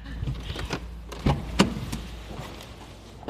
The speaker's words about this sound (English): I'm going to suggest that we Pull over and so that you can stop driving.